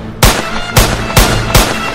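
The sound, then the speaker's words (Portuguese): Loud explosive bangs from robbers blowing up a cash machine: four sharp blasts in uneven succession, each with a brief rumbling decay. “Nesse final de semana teve explosão de caixa eletrônico, bandido explodiu o caixa. Pum!”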